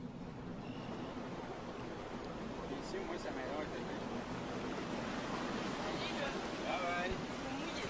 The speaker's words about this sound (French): Là, ils viennent de réaliser qu'ils font des vagues, là, je pense.